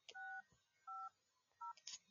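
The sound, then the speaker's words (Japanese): Telephone keypad dial tones while calling a customer center about a KAMONO84 Super Duster: three distinct DTMF beeps, each about a third of a second, separated by short pauses and faint clicks. “とりあえずちょっとこのカスタマーセンターここかここかけてみようか。”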